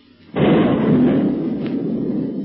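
Artillery shelling of a rock cave from a boat's gun: one heavy blast bursts in suddenly and rolls on as a loud, sustained low rumble that fades only slightly.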